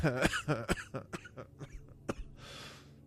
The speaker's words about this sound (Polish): Przepraszam. Zaczynam kaszleć jak Ator